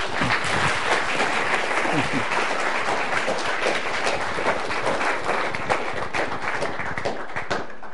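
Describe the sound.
Sustained applause from a church audience welcoming a guest speaker to a ministry service: dense, steady clapping that fills the whole stretch at an even level without pause.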